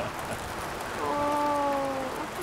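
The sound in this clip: Steady rain falling outdoors, a dense even hiss throughout. Midway, a brief tonal sound with harmonics sustains and then drifts slightly downward in pitch before fading back into the rain.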